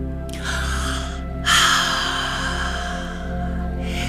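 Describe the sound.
A deep inhale followed by a long, breathy exhale during a guided meditation, each breath loud and airy over a steady low hum.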